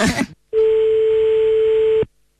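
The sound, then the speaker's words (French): A telephone line tone sounds while a call is being dialed. A single steady, unbroken tone holds for about a second and a half after a short burst of noise, then cuts off abruptly. “On compose le numéro de téléphone.”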